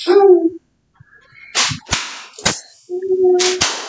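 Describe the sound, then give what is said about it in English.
Leather flogger strikes: a few sharp, loud slaps and cracks land in quick, uneven succession, separated by short quiet gaps. “Flogger. The leather flogger.”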